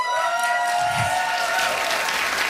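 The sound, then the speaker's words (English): A live audience gives brief, dense applause and cheering when past guests of a long-running show are called on to make noise. “I'm even just looking at this front row. If you have ever been on Now or Never, make some noise.”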